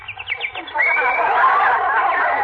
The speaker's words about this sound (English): Isn't that cute? That sparrow must be building a nest.